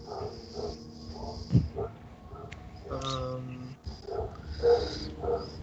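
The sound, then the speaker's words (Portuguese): Dogs barking and whining in a scene from a tabletop fantasy role-playing game, with short yelps and whimpers rising now and then over a steady bed of voices talking. “Ó, oh, eles estão latindo.”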